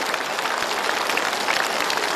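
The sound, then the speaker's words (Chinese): Audience applause, a dense, steady patter of many hands clapping at an even level throughout the short stretch. “你看大家，他们的掌声都送给你。”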